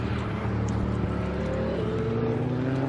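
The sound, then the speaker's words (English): Engine of a truck pulling off a racing circuit: a loud, steady low drone with layered harmonic tones that holds for the whole stretch. “truck pulling off the circuit there, disturbing my thought pattern there for a second.”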